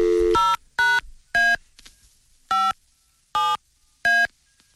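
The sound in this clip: Touch-tone telephone dialing: seven separate beeps, each a short bright dual-tone burst, spaced unevenly with quiet gaps between them and faint background noise.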